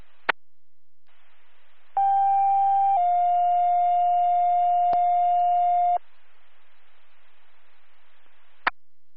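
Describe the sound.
Radio dispatch alert tones page responders to a sick-person call: a sharp click, a steady tone of about a second, then a slightly lower tone held for several seconds before cutting off, with faint static and another click after.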